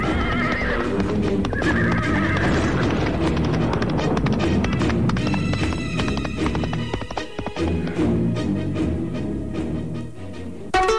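A bridled horse whinnies and neighs while its hooves pound in a fast, continuous gallop, loud and busy throughout.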